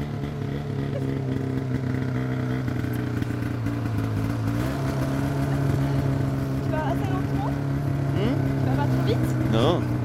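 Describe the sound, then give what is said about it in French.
A snowmobile engine drones as two riders sit one behind the other, the driver accelerating hard across snow. The motor holds a loud, steady buzzing tone throughout, with a few brief higher chirps near the end. “là on est monté sur le motoneige. On est l'un derrière l'autre”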